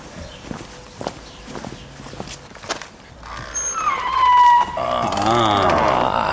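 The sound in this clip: Old wood in a boatyard hall creaks with a drawn-out squeal that wavers in pitch, followed by a lower groaning stretch, after a run of footsteps on the floor.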